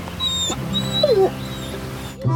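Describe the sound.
A dog whimpers in one short, high whine, with faint whistly tones around it and no voices.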